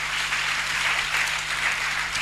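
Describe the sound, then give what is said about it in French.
Congregation applauding during a church service: dense, continuous clapping at an even level throughout, with a faint steady low hum underneath. “On peut acclamer le Seigneur pour cette attitude.”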